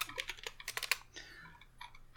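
Rapid typing on a computer keyboard: many quick, crisp key clicks in a dense burst, then sparser, fainter taps and light rustling.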